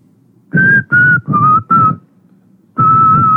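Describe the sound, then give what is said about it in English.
A person whistles a tune: four short, clear notes at a steady mid-high pitch in quick succession, a brief pause, then one longer held note, alone without talk. “he starts whistling and it goes”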